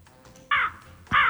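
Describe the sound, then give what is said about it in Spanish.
Crow cawing twice, two harsh, loud, nasal caws separated by a short gap, with no talk. “Un cuervo. Un cuervo. Qué bueno, un cuervo.”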